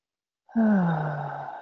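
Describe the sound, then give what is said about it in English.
A long voiced exhale, like a deep sigh, during a guided breathing relaxation exercise. It begins abruptly, holds for about a second, and sinks slightly in pitch as it fades, with no other sounds around it. “And exhaling fully. Deep breath in.”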